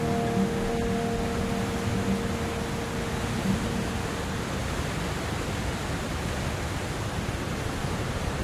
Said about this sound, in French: Le bruit que vous entendez derrière moi, c'est celui d'un gros torrent.